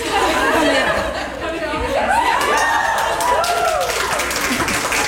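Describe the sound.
A choir cheers after winning a competition. Excited shouts and rising whoops ride over a dense bed of clapping and chatter, with some laughter mixed in, at a steady loud level.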